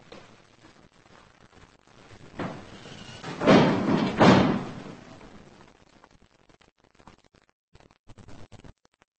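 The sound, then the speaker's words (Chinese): A door being shut: a couple of heavy, booming thumps stand out loudly amid an otherwise quiet stretch, with softer knocks and rustles before and after. “把门关上。”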